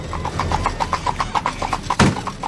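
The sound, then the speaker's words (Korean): Horse hooves clip-clop in a quick, even rhythm as a horse-drawn carriage suddenly speeds away. Many crisp hoof strikes, with one heavier thump near the end. “그 소리가 신호라도 되는 듯 갑자기 마차가 속력을 냈다.”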